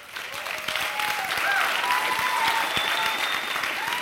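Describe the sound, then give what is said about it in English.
Audience applause fills the room at a talk, a dense, steady wash of many hands clapping that swells slightly after the first half-second and then holds loud and continuous to the end. “you're clapping for the wrong thing. That clap should really be for all of the women who continue to put up with the men in this room every day.”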